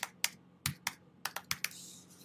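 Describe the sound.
Fingers type a word in Hebrew on a computer keyboard, producing a short run of sharp, uneven keystroke clicks with brief pauses between them, then a soft hiss.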